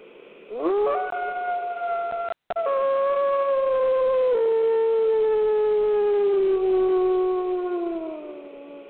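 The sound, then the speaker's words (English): Wolf howling in challenge to fight: a long, sustained tonal howl that rises at the start, then slowly falls in pitch over several seconds, broken once by a brief gap. “that's a wolf that wants to get it on, wants to mix it up, wants to fight to the death. See, again, listen.”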